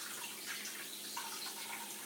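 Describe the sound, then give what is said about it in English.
Steady rush of water running from a tap while waiting for it to turn hot, a continuous even hiss with no breaks or voices. “It is taking a long time for the water to get hot and it's coming out.”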